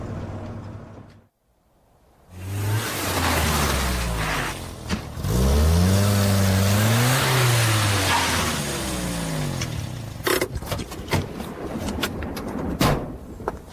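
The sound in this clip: A car drives and arrives home in Primrose Hill. After a short silence the engine noise swells, its tone rising and falling as it accelerates, and a few sharp clicks and knocks follow near the end.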